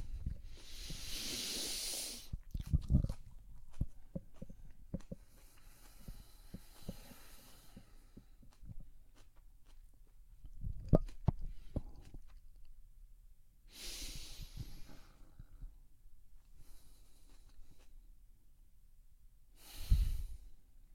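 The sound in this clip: Deep breathing exercise with slow, loud, airy inhalations and exhalations. A few strong breathy rushes are spread across the stretch, separated by long spans of quieter breath and faint low sounds, with no talk.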